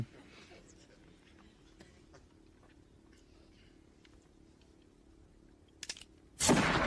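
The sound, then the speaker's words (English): Gunfire from a film scene in which a building-sized police robot is threatened: faint crackles, then a sudden loud, sustained blast of shots at the very end. “No, I think he just shoots him once.”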